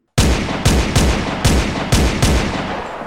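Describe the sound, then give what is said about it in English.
Gunfire sound effect of men shooting at a diving hawk: six loud, heavy reports in an uneven rhythm, each a sharp crack trailing into a rumbling tail, with no voices. “gunfire! They were shooting at him!”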